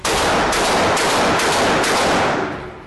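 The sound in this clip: Gunshots are fired in rapid, sustained succession, a loud, dense crackle of gunfire that runs almost without break before tailing off at the end.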